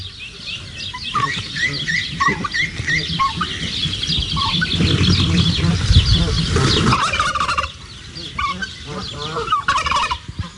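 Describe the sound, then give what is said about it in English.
Wild turkey gobbling loudly and insistently in a long, busy run of rattling calls, with higher chirps mixed in and a brief dip in loudness before the calling resumes. “Gotta say, it sounded like a bossy one, didn't it? They always sound beautifully indignant, don't they, turkeys?”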